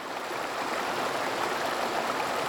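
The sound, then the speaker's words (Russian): River water flows with a steady, even rushing and bubbling that stays at a constant loudness throughout, with no voices. “Слышите? Так звучит река.”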